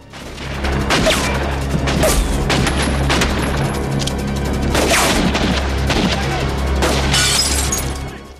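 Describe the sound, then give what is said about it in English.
Gunfire aimed at men standing by a Mercedes car: several loud, sharp bursts with crashing, shattering impacts over a dense, continuous roar of noise throughout. “He opens fire on the men by the Mercedes.”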